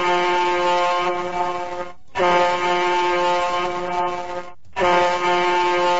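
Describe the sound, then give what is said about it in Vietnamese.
Three long blasts from a ship's horn at a pier, each a loud, steady, rich tone, with the horn cut off by two brief gaps between blasts. “Vừa lúc đó, ba hồi còi tàu vang lên.”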